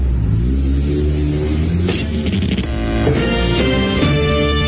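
A car engine revs and accelerates in a radio advertisement about checking traffic before a toll-road drive, a loud, continuous low drone with steady harmonics and a few brief surges.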